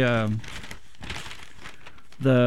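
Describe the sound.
A paper newsletter from Vietnam Veterans Against the War crinkles and rustles as it is handled, with the crumpling heard between short stretches of speech at the start and end.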